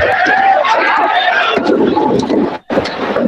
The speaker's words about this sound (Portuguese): Temos o nosso público aqui a puxar por nós